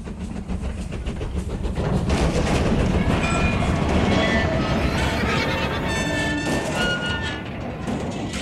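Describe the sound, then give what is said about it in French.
A train runs along the rails on its way back from Le Havre, a loud, steady rumble with rhythmic clickety-clack that builds toward the middle, joined later by high squealing tones. “Jacques et son amante, qui sont à bord du train qui revient du Havre. Elle décide de placer deux énormes rochers sur les rails, juste avant son passage. Écoutez.”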